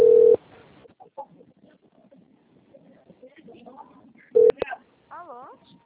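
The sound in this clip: Telephone keypad tones from pressing zero in a phone menu for a payroll-loan credit line: two short, steady beeps, the first longer, with faint muffled talk between them and a warbling electronic tone afterwards.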